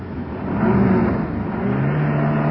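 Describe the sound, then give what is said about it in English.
Car engine drones steadily as the car turns a corner with the indicator on, a loud, continuous low hum with a slight swell partway through. “All right. We're turning the corner now. Indicator out.”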